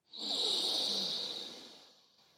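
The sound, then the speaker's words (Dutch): A single slow breath from a calm breathing exercise swells quickly into a soft airy rush, then fades gradually over about two seconds. “We ademen in door de neus kunnen de ogen rustig sluiten.”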